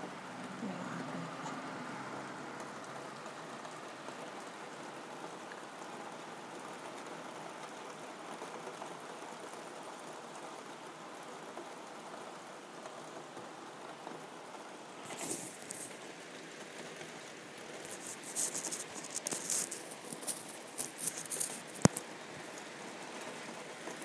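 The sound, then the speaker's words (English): Steady light rain falls after more than a week of hot weather, a soft continuous hiss. Scattered sharper drips and taps stand out toward the end. “Here's the rain.”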